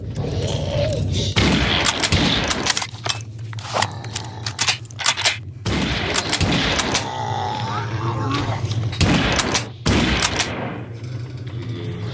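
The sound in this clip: Hunting rifle shots in a video game: many sharp cracks fire in irregular bursts over a steady game background hum, while a voice talks at times.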